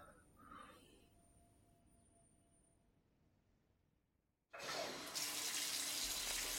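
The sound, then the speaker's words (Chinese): A hotel bathroom tap is opened to fill a bath. After several quiet seconds with only faint background sounds, a loud gush of running water starts abruptly and pours steadily to the end. “你要洗澡吗？我去给你放水。”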